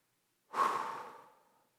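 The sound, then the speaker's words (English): One deep breath: a soft, airy rush of air that rises quickly, then tapers away gradually over about a second before silence returns. “everybody just take a deep breath. Ready?”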